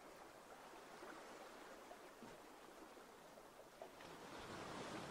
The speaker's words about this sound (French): Le bruit de l'eau, toujours, qui vous guide et vous rassure.